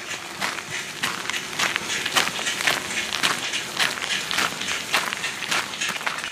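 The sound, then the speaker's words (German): Footsteps in slide sandals worn with socks on medium gravel in Brandenburg: a long run of steady, evenly spaced crunching steps, loud and alone. “Hört ihr das? Den mittelgroben Kies, die Adiletten mit Socken in Brandenburg.”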